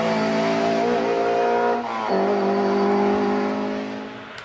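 A Skoda with a straight-cut gearbox revving hard: a loud, sustained engine howl rich in harmonics, dropping briefly in pitch midway before climbing again, then easing off at the end.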